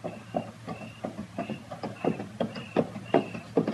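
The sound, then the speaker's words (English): Horse hooves clip-clop at an even walking pace as a horse is led along with a body tied across its saddle, many soft regular hoof falls in a steady rhythm with no other sound. “Not a pack horse. There's a body tied across the saddle, and that's Andy leading it.”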